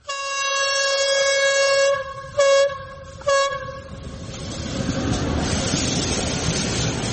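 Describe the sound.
Train horn blaring in a village where trains pass now and then: a loud sustained multi-tone blast, two short repeated hoots, then a fading rumble of the passing train with no talk.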